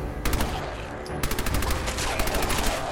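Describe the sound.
Gunfire in a video game as the player shoots ghouls at a police station: dense, rapid bursts of sharp shots repeat almost continuously at a steady, loud level.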